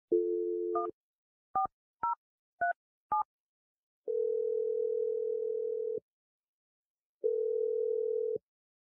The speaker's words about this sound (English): All right, here we go. I'm dialing your number right now.